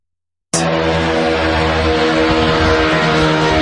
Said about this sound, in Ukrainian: Я слышу жужжание ракет, мне кажется.